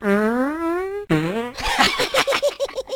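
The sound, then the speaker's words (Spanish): A loud fart: two buzzy drawn-out tones, each rising slightly in pitch, then a rapid string of sputtering pops that trails off. “¿Marrano? ¿Por qué? Todo el mundo se tira pedos.”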